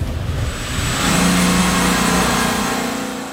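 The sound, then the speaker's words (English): A car engine hums steadily with road noise as the car drives through the village of Buchenbach toward a workshop, the drone fairly loud and even throughout. “So right now we are driving through the village of Buchenbach towards the workshop where our mechanic AJ is working.”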